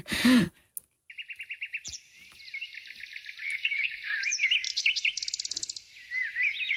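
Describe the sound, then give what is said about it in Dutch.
Birds singing in quick high chirps and trills. After a short opening burst, the calls overlap and build into a dense, continuous chorus at moderate loudness. “Het is wel toepasselijk om nu de vogels erbij te halen. Ja, inderdaad. Ja, ja, want dit is het geluid van je jeugd.”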